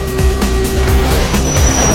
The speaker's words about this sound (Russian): Под землей в тоннеле несется поезд метро.